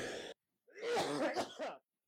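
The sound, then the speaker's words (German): A person coughing and sneezing at the same time: a short burst, a brief pause, then a longer, explosive, breathy fit with a few peaks. It is fairly loud and heard alone. “Das war Husten und Niesen zeitgleich.”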